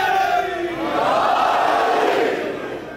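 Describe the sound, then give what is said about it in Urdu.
A crowd at a Shia devotional gathering roars a religious slogan (naara) in unison, invoking love for Ali and calling out to the Imam of the Age. The shout swells into a loud, sustained roar, then fades toward the end. “جس کے دل میں علی کی محبت ہے اپنی آواز کو امام زمانہ تک پہنچاتے ہوئے نعرہ”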